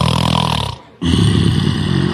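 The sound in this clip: A man snores loudly while asleep in bed, a coarse, rasping rumble that runs on steadily, breaks off for a brief pause, then resumes just as strong.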